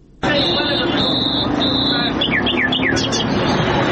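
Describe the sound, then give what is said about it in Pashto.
Wild birds such as nightingales, partridges and mynas chirp at a bird market in the middle of Kandahar city, with loud, shrill sustained whistles followed by a run of quick, downward-sweeping chirps over a dense, noisy background. “دا د کندهار شهر په منځ کې د وحشي مرغانو د پیر او پلور بازار دی دلته پلسکونه بیلابیل ډول وحشي مرغان لکه بلبلان جلان زرکی میناوی او نور”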